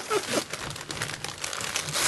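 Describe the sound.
Wrapping paper crinkling and rustling as holiday gifts are wrapped, a continuous busy crackle with rougher bursts scattered throughout.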